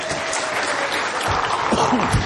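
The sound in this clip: Applause from an audience welcoming a guest onto the stage, a thick, continuous wash of clapping that stays loud and even throughout.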